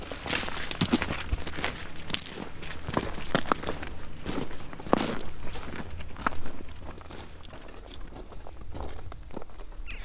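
Footsteps walk into a house toward Tycho Brahe's fountain at Uraniborg, a steady run of many shuffling steps with scattered sharper scuffs throughout.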